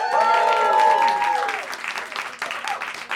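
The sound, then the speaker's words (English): Audience applause welcoming a performer to the stage at a live improv comedy show, loud sustained clapping with voices cheering over it early on, then thinning and fluttering toward the end. “Please put your hands together and welcome to the stage, Heidi Regan!”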